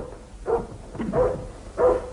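A dog lying at the foot of a staircase barks three times in short, sharp, evenly spaced yaps, each fairly loud with a clear tonal core.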